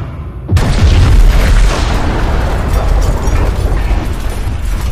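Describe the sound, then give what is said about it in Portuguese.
An explosion sound effect for a cyberpunk tabletop role-playing game, a blast that shakes the ground: a sudden loud boom after a brief quiet start, then a heavy, sustained rumbling roar to the end, with no talk. “tem uma explosão que treme o chão inteiro e todo mundo vai ao chão.”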